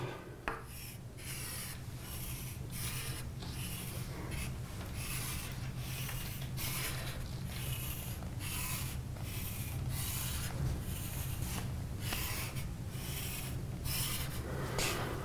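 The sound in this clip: Scratchy strokes of a diagram being drawn by hand during a lesson on sequential logic and flip-flops: a long run of many short, rasping marks, fairly faint and steady, with no talk.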